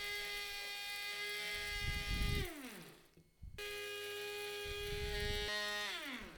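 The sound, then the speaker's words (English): A spice mill grinds roasted, chopped cocoa nibs with a loud, steady, high motor whir. It winds down in pitch and stops midway, then starts again and runs on to the end. “which are roasted cocoa beans that have been chopped up, and we're going to grind them up in a spice mill. Now, it does take quite a long time.”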